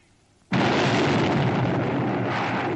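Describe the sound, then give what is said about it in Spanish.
A gunshot blast in a 1972 western, fired by a judge into a man's back, hits abruptly and stays loud as a dense roaring burst for over two seconds without fading. “El juez le dispara por la espalda haciéndole un gran boquete.”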